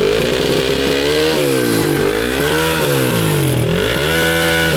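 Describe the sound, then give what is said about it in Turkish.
A motorcycle fitted with a remote-controlled exhaust revs hard at full throttle during a traffic police inspection. The loud, raspy engine note runs continuously, its pitch repeatedly rising and sagging as the throttle is worked. “Tam gaz, tam gaz. Ver. Gaz.”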